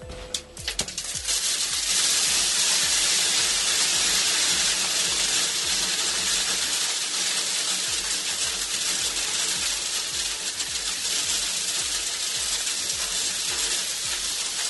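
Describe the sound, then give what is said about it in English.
About 300 pounds of acorns, stored by a woodpecker inside a transmitting antenna, pour out in a dense, hissing, rattling rush. A few scattered clatters open it, then a loud, steady downpour continues throughout. “That was 300 pounds of acorns inside a transmitting antenna stored by what they think was one single woodpecker.”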